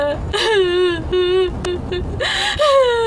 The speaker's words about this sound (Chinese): 冤死不能复生，你再哭也哭不过来啊！啊，别哭了啊！